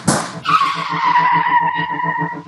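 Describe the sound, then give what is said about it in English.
A van skidding into a spin: a short harsh burst gives way to a loud, sustained tire screech. The screech stays high and steady over a pulsing low rumble, fading only slightly before the end. “And the van is like almost going into a spin.”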